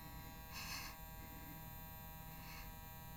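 An electric toothbrush buzzing: a faint, steady, even-toned electric hum with two brief brighter bursts of noise over it.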